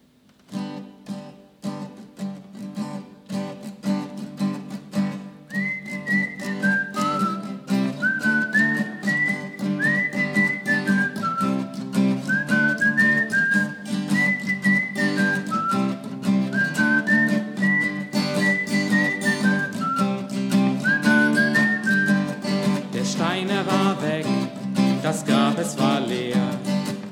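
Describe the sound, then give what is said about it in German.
Someone whistles the refrain of a song, a clear, high, lilting melody of rising and falling phrases carried over steady instrumental accompaniment with rhythmic strumming that continues throughout. “ich singe es euch vor und vielleicht könnt ihr am Ende den Refrain mitpfeifen. Aber hört selber.”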